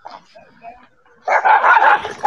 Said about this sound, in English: Oh, y'all hush. Fucking stupid dogs.